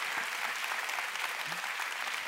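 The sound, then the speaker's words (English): A church audience applauds during a sermon about Jesus being alive. The clapping is steady and dense but fairly soft, and it holds evenly for a couple of seconds. “I think this is a good point to clap.”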